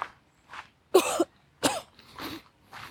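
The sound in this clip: Coughing and throat clearing after a small piece of hard candy is inhaled into the throat: several harsh bursts, the two loudest in the middle, with quieter coughs before and after and no talking.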